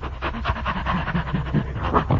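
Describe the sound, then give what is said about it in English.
Heavy panting from someone out of breath after climbing a hill: a long run of rapid, rhythmic breaths, fairly loud and steady throughout, with no talk over it. “Did you get out of breath climbing up that hill?”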